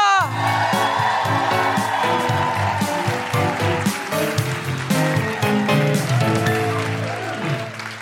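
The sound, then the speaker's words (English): Audience clapping, cheering and whooping at a live comedy show in Cambridge as a performer is welcomed on stage. Dense, steady applause and shouts run throughout, with music playing alongside. “Then put your hands together and make incredible, welcoming, woohooing noises”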